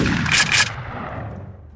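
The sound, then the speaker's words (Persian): A rifle shot fired during the 1963 motorcade assassination: a harsh, broad burst with two sharp peaks in quick succession, trailing into a fading low rumble. “تیر چهارم شلیک میشه، به پشت کندی برخورد میکنه”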